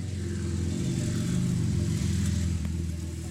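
A car drives off up the hill at the 2022 Goodwood Festival of Speed, its engine a loud, deep, sustained rumble that swells slightly and holds steady throughout.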